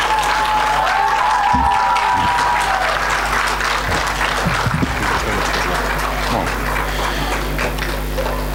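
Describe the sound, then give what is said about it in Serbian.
Church audience applauding a choir, a sustained and loud wash of clapping that stays even throughout, with a low steady hum underneath. “Molim vas, pozdravite aplauz.”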